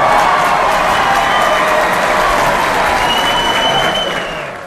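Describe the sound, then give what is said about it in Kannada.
Applause from a crowd: loud, dense, sustained clapping that holds steady throughout and tapers off only in the last moment. “ನಿಮ್ಮ ಹೆಸರು ಹೇಳಿದ್ದೀವಿ ಅಂದ್ಕೊಂಡು ಚಪ್ಪಾಳೆ ಸದ್ದು ನಿಮಗಾಗಿ.”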